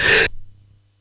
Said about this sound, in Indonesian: Kok tiba-tiba jadi kayak kedinginan, meler-meler hidung kayak gini nih.